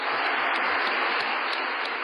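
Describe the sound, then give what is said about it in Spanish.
A large crowd of pilgrims applauds in honour of fathers at a Sunday gathering in Rome: steady, dense clapping that continues evenly throughout. “A todos los papás, saludémoslos con un gran aplauso. A tutti i papà salutiamo con un grande applauso.”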